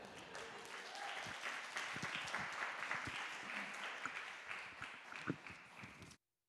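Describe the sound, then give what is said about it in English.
An audience at a church service applauds to welcome a speaker. The clapping is a steady, even wash at moderate loudness that holds for about six seconds and then stops abruptly. “If you can give me a hand in giving Raf a very warm welcome.”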